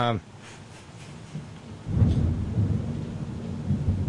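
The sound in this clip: Thunder rolls during a thunderstorm over a constant hiss of rain. A deep rumble swells partway through and keeps growling to the end.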